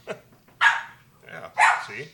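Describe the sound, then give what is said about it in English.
Dogs barking: a few sharp barks, including two louder ones spaced about a second apart, with quieter low sounds between them. “Oh, and there's the dogs, in case you missed them, too.”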